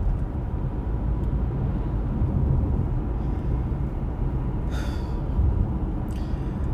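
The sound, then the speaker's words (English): Car driving on I-95, a constant low rumble of engine and tyre noise that holds steady throughout with no distinct events. “That I get to drive on this road that I'm driving on right now.”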